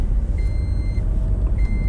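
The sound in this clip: Car seatbelt warning chime for the passenger seat: two steady high beeps over the low rumble of the car being driven.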